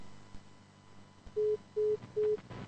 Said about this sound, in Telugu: Okay, call cut అయింది.